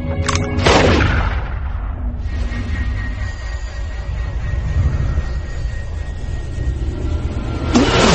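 Gunshots fired at a target: a sharp, loud blast near the start and another at the very end, with a dense, steady rumbling roar filling the gap between them.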